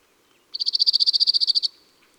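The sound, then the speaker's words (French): A cirl bunting sings a single rapid, even trill of many high, dry, buzzy notes on one pitch, lasting just over a second and sharply cut off, with no other sound around it. “le bruant zizi doit son nom à son chant. Zizi zizi zizi zizi.”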